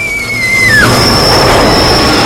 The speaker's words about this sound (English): A subway train rattles through a station.